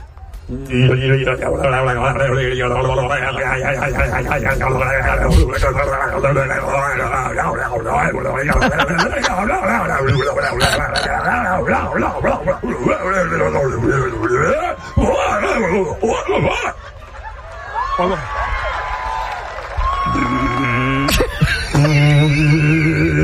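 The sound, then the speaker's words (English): A human voice imitates a Bigfoot in the winning call of a calling contest, with long wavering wails and moans that swoop up and down in pitch. The call stays loud and sustained, with only brief breaks. “I was just curious what a Bigfoot call sounded like. Right. This is the winning call.”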